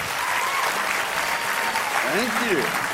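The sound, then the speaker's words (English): An audience in Sydney applauds to welcome a guest speaker from Utah. Thick, continuous clapping runs throughout, and a brief voice rises above it near the end. “So let's give him a very, very big Sydney welcome. Let's put our hands together for Don Tolman.”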